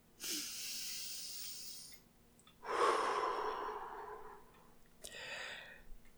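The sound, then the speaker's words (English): A person takes a deep breath: a few long, soft, airy breaths with brief pauses between them, heard on their own without talk. “Deep breath.”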